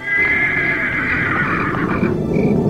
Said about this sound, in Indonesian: Kuda hitam itu berlari cepat dan semakin cepat.